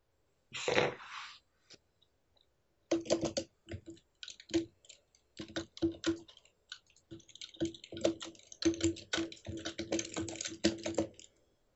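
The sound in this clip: Keyboard typing from someone writing: a short burst of keystrokes, a pause, then many steady runs of crisp clicks with brief gaps, alone with no talk.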